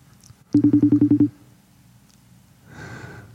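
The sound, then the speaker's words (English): FaceTime video call ringing in a studio: a quick series of evenly spaced electronic beeps at one steady pitch, loud and alone, followed by a softer noisy rush. “Let's call him real quick. Come on, Nathan. Come on, Nathan. I just texted him and told him we were trying to FaceTime him from the studio.”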